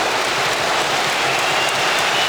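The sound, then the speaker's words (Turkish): A stadium crowd applauds a shot at a football match, a dense, loud roar of clapping and noise that holds steady throughout. “Genç Yunus Akgün'ün şutu tribünlerden büyük alkış aldı”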